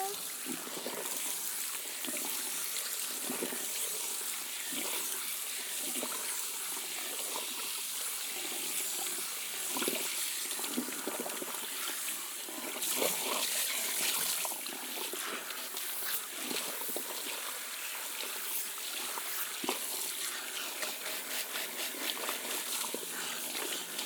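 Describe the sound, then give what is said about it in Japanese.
Hot water rinsing shampoo out of hair, a steady splashing and trickling wash that runs the whole time with a few brief louder surges. “ジャブジャブ。シャンプーした後はしっかりお湯で洗い流さないとですからね。”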